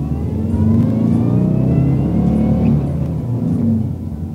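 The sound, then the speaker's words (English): A van's engine roars as it accelerates hard, tearing across a border right after the last strands of a wire fence are cut. The revving is loud and sustained and runs alone from start to finish. “When the last strand was cut, Ibrahim pressed on the gas, and the van tore across the border.”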